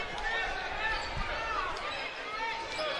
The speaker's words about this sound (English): As McConkie dribbling near midcourt, slowly walks it up, brings it toward the left wing.